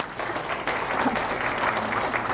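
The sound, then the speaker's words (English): Audience applause for open-source maintainers at a tech conference talk. Steady, dense clapping from many hands continues evenly for the whole moment, with no voices rising above it. “Just huge applause for the maintainers.”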